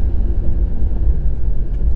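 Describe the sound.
Steady car road noise heard from inside a moving vehicle, a dense, continuous low rumble with an even level throughout and no talk.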